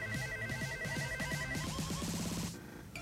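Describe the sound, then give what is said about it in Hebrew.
Telephone ringtone as a host places a call to a listener in a prize contest. Quick, quiet, repeating warbling electronic tones over a faint sustained tone, which stop abruptly near the end. “ואנחנו עכשיו עושים את ה... מתקשר לאחת או לאחד מכם.”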